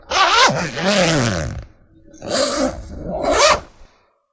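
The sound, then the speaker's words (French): A tent zipper being opened gives one long rasping pull, then two shorter quick zips after a brief pause. “Tu parviens enfin à ouvrir ta tente.”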